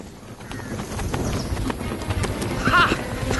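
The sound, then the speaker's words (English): A horse gallops across fields in France with a disguised rider, its hooves beating a rapid, steady clip-clop over a low rumbling undertone, fairly loud throughout. “While Lady Joanna, disguised as a soldier, galloped across the fields of France”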